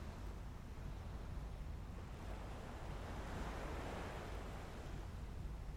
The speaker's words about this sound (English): enjoying the gentle sounds of the sea and the warm sun on your face, the breeze playing on your skin.